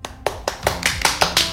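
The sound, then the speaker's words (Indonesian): Crisp hand claps ring out in a steady, evenly spaced rhythm, about seven sharp slaps in quick succession, with no voices over them. “Dewasa sekali kamu, beri aplaus buat Kedejao.”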